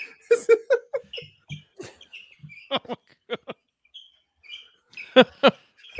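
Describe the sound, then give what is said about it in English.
Basketball shoes squeak on a court without music. Many short, high, chirping squeaks come in irregular clusters and sound much like birds in a pet shop. “Sounds like they're in a goddamn pet shop, right? Shit, it sounds like birds.”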